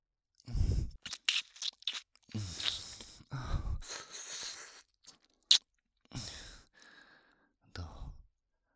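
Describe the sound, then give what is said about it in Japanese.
Ear licking in Japanese-language ASMR: close, wet slurping and crunchy smacking mouth sounds come in several irregular bursts separated by brief silences, with soft breathy whispers, all quiet. “じゃあたくさん舐めてハマらせちゃおうかな。”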